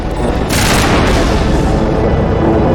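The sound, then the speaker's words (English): Defense turrets firing on a dropship in a video game make a dense, sustained barrage of booming gunfire that blurs into a continuous roar. “So we got three defense turrets all shooting the dropship.”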